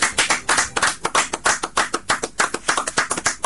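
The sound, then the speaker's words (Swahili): Rhythmic hand clapping from an audience praising God at a Swahili-language religious gathering, with many sharp, evenly spaced claps in a quick, steady beat. “Tupigie kwa Mungu makofi.”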